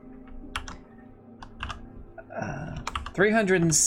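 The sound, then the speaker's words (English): Typing on a computer keyboard gives a scattering of light, irregular key clicks, and a voice speaks near the end. “I'll type this out.”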